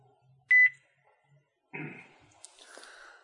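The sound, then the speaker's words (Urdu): A brief, high electronic beep on a phone line as a radio call-in caller is cut off, followed after a pause by fainter clattering and hiss. “کالوں کا load ہے، کال کٹ گئی.”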